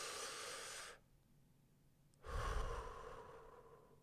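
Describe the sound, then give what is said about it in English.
Slow, deep breathing during a relaxation exercise: one long, airy breath, a pause of over a second, then another long breath that slowly fades, with no talking. “You can take a slow, deep breath in, pause, and then take a long, slow breath out.”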